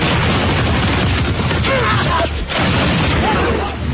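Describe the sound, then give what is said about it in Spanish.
Intense volleys of rifle fire from Tagalog fighters in a battle at Baler in the Philippines, a dense, continuous crackle of overlapping shots with no clear gaps between them. “Los tagalos respondieron con un intensísimo fuego.”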